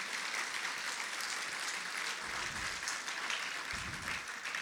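Faint, steady applause from a group celebrating the birth of a grandchild. The clapping is a continuous dense patter with no talk over it.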